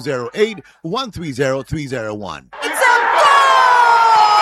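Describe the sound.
A football crowd roars for a goal after a voice shouts excitedly. The cheering erupts suddenly and stays loud and sustained for about two seconds, with steady tones running through the noise.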